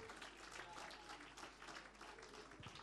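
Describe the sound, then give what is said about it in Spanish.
A church audience applauds during a celebration service, producing a dense, continuous patter of many hands that stays faint and even throughout. “Gloria a Dios, aleluya, fuerte ese aplauso.”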